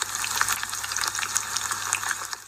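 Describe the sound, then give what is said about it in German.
Diced bacon frying in a pan over medium heat gives a steady, dense sizzle full of rapid crackles and small pops, fairly soft and unbroken throughout. “Nun musst du die Speckwürfel in eine Pfanne bei mittlerer Hitze anbraten,”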